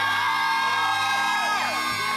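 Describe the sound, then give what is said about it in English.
A rowdy crowd at a church service cheers and whoops, a loud, dense wall of voices with sliding high whoops rising and falling throughout. “The rowdy crowd. Maybe it's something to do with Travis. The rowdiest of them all.”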